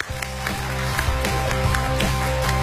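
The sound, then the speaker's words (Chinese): An audience applauds a guest speaker at a live stage event, the clapping blended with loud music that carries a steady, regular beat. “我们掌声有请”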